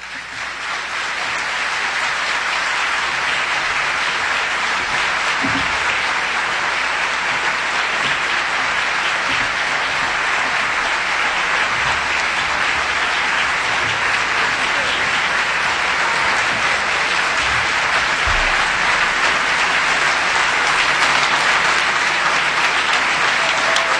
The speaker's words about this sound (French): Mesdames et messieurs, accueillez chaleureusement le grand humaniste Albert Jacquard.